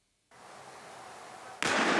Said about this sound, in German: Diese Explosion gestern Abend auf einem Feld in Holle war ein Sprengsatz, der sich unter einem Wagen in einem Wohngebiet befunden hatte.